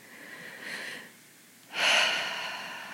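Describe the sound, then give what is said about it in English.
Deep breathing, heard alone without talk. A softer breath is followed by a brief quiet gap and then a louder, longer breath with a rough, airy hiss that slowly trails off. “what I do when I first notice these fantasies happening is I breathe.”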